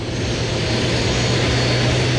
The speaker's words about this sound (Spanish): BioBio TV da cuenta de este jet privado de la República de Panamá, porque hace instantes acaba de aterrizar acá en la losa